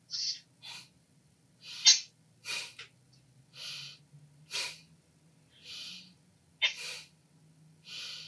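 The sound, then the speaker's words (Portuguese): Forceful breaths during a breathing exercise: a series of short, sharp, hissing breath bursts at uneven intervals, each one abrupt and breathy, with a faint low hum underneath. “Nós vamos inspirar grande. E expirar de uma vez só.”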